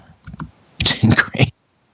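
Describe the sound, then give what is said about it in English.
Fingers type a chat message on a computer keyboard with quick clicks: a couple of light taps, then a dense burst of keystrokes that stops abruptly. “He can't hear us, so I'm just going to type him a message.”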